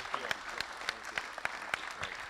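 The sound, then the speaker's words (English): Audience applause at a church gathering after testimonies: a fairly sparse, rhythmic patter of hand claps at moderate volume. “Please give those people a big clap.”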